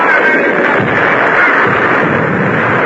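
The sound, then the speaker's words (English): Cannon fire on the gun deck of a warship in battle makes a loud, sustained roar that holds at an even level for the whole stretch, with no separate shots standing out. “Fire! His gun is loaded and fired twice as often as any other on deck.”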